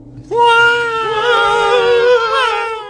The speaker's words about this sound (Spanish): Che, los gatos volvieron y están moqueando.